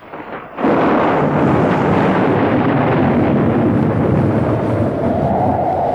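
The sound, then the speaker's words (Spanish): A formidable storm rages at sea, with rolling thunder and wind bursting in after a quieter first half second, then a loud, sustained, rumbling roar that continues without break to the end. “Reinaba en el mar la más formidable tormenta.”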